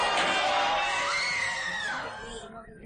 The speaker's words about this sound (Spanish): Como gritan en la calle. Y corren en todas las direcciones.